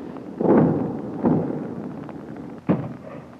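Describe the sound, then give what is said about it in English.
A 60-millimeter mortar fires high-explosive rounds in three deep, booming thuds, the first two close together and the third after a longer gap, each trailing into a low rumble. “every once in a while, a 60-millimeter mortar mission is called out to our left front whole mountain out there. In front of us looks like a 9-acre Christmas tree. Fire. High explosive.”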